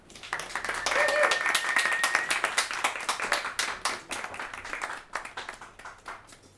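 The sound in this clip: An audience applauds to welcome a writer onto the stage at an open mic reading. Many hands clap in a dense burst that builds quickly, holds, then thins into scattered claps as it fades.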